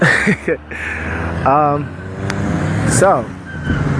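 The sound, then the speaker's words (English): Traffic on a busy road passes while someone walks to class, a steady roadway hum beneath a person speaking, with a car swelling and fading about midway. “I'm sorry about the background noise, if you can hear that. I'm currently walking to my class right now, and it's a busy road.”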